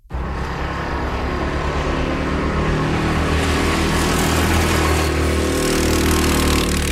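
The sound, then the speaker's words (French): Go-karts run at a karting track in Magog with a steady, loud engine drone that continues without a break, and no voices are heard. “Alors j'ai pu aller visiter en fait le karting Harford à Magog.”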